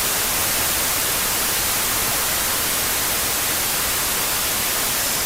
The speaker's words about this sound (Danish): Prøv at lade os lige få hvid støj igen.